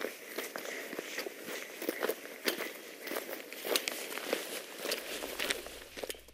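A metal, length-adjustable walking pole taps on a hiking trail, its many sharp, light clicks mixed with crunching footsteps in hiking boots, all fairly faint and steady in rhythm.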